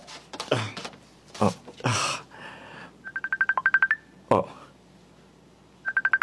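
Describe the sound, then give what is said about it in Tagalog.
Phone call dialing tones: a rapid, evenly spaced run of steady electronic beeps in the middle and another short burst at the end. A voice talks before and between them. “Tawagan ko na lang siya.”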